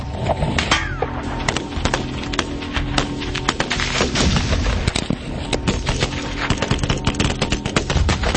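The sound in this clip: .50 caliber machine gun fire: many loud, heavy shots crack out in rapid, uneven bursts that continue without pause.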